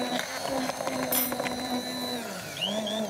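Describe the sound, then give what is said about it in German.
An immersion blender whirs through hollandaise sauce made with melted butter, a pinch of sugar, salt and pepper. Its motor whine holds a steady buzzing pitch, dips briefly and then climbs back up. “So, dann Mixstab rein. Und los geht's.”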